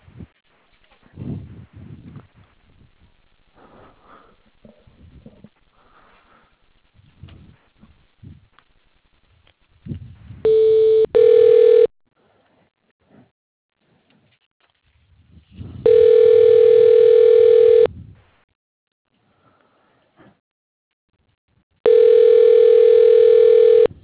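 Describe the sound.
Telephone ringback tone plays as a bank call is transferred. Steady electronic tones repeat a few times, each lasting a couple of seconds, with quiet gaps between them and talk before the first ring.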